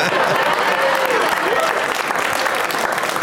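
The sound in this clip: A live audience breaks into dense, sustained clapping, a loud, even wash of many hands with a voice briefly audible over it.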